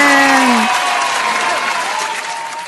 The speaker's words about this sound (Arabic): برافو لكل الشاطرين، نسمع لهم سقفة كبيرة جدا.